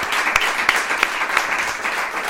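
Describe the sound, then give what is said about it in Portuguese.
Audience applause thanking a guest at the close of an event: a dense, steady wash of clapping with a few sharper individual claps standing out, holding at an even level throughout. “ajudem-me a agradecer ao Miguel com uma enorme salva de palmas pelo exemplo fantástico que é.”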